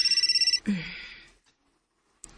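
A cellphone rings with a quick string of high-pitched electronic beeps that cut off after about half a second, followed by a breathy vocal exhale that fades into silence.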